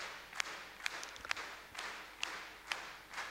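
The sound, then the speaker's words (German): Faint rhythmic clapping from an audience clapping together in time, a steady pulse of roughly two claps per second over quiet background hiss. “Klatscht jetzt mal zusammen in einem Rhythmus.”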